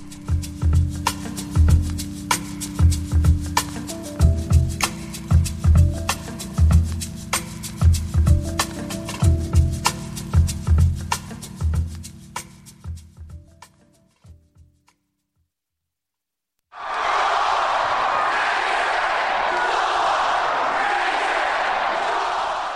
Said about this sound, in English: That's the sound of deliriously happy George Mason University fans.